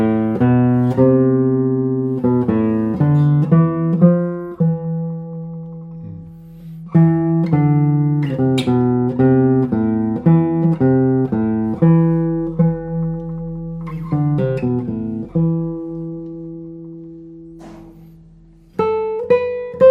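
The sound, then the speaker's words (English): Notes played one after another on a traditionally built guitar, each plucked tone ringing and decaying, some held longer, forming a slow, deep melodic sequence. “this is a traditionally built guitar and I love this. I really love this. Would you play some notes on it?”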